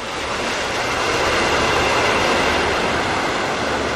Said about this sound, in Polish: I oczywiście Vaporetto. Wenecki tramwaj wodny, którym poruszają się mieszkańcy, ale także turyści.